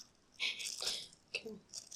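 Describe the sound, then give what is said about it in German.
Crinkling and rattling of a small plastic bag holding two screws as it is picked up and handled, with a few short, faint rustles and crackles separated by quiet gaps. “Das hört sich ja gerade so an, als würdest du dir eine Schokolade oder so aufmachen. Nee, ich habe hier gerade so eine Tüte mit 2 Schrauben drin.”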